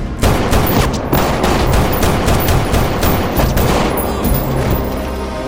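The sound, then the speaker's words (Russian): Gunfire in a film scene: a loud, dense, continuous volley of many overlapping shots with booming low end, sustained without pause across the whole stretch, with no talk. “Сайкс стреляет человека Фрэнкса.”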